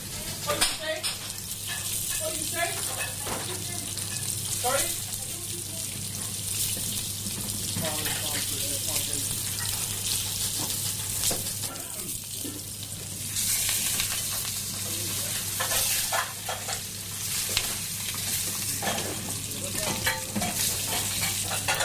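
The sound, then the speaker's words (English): Deboned chicken pieces brown in a frying pan with a steady, loud sizzle throughout. Scraping sounds from stirring and a wash of running water sit over the sizzle. “I take about four or five minutes just to brown them off, and then in the oven maybe another 3 or 4 minutes.”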